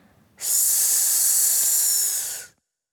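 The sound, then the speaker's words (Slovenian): A single long, hissing breath out during a guided breathing exercise, loud and steady for about two seconds before it cuts off into silence. “nadaljujemo s 5 vdihi in izdihi v svojem ritmu.”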